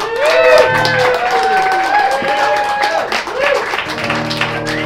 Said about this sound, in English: Round of applause for Miss Kaylee Reeder, please.